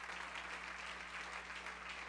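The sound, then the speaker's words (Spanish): Congregation applauding during a church sermon: continuous, even clapping from many hands, fairly faint, with a low steady hum beneath it and no voices on top. “Dale un aplauso a Cristo si lo crees.”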